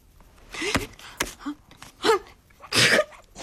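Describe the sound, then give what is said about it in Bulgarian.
A person sneezes: a few short breathy bursts build up to one loud, harsh burst near the end, with no talking. “На здраве. Извинявай. Извинявайте.”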